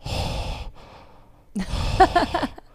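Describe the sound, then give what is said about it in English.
Heavy mouth breathing goes straight into a microphone: a long, rough, breathy exhale, a short pause, then a second loud breath with a slightly voiced, sighing quality. “for those of you that couldn't hear that, I'm mouth breathing into Everyone can hear it.”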